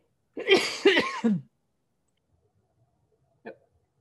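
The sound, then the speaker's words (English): Three harsh coughs come in quick succession after tea went down the wrong way, followed by a single short, quieter burst moments later. “Never drink tea and talk at the same time. Went down the wrong way.”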